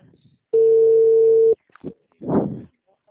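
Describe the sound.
The ringback tone of an outgoing telephone call sounds once: a steady mid-pitched beep lasting about one second, loud and clean, followed by a few brief bursts of sound that may be a voice.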